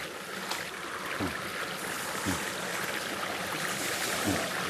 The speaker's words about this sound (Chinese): 山林间有着很多小溪和清泉。